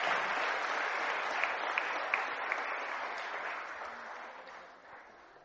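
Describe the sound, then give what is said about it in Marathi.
Applause from an audience at a high school award ceremony congratulating a winning student, with dense, sustained clapping that holds steady and then gradually fades toward the end. “जोरदार टाळ्या वाजून आपण तिचं अभिनंदन करूया.”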